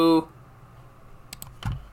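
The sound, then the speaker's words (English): A few quick, sharp key clicks from a computer keyboard while code is typed, sparse and irregular, coming after a brief moment of voice at the start. “under extern crate alloc, we're also going to type a use statement”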